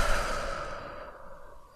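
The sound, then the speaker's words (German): A deep breath taken during a guided affirmation and breathing exercise: one continuous, airy rush of breath that starts fairly strong and gradually fades, with no talking. “Und dann atme noch einmal tief ein, tief aus”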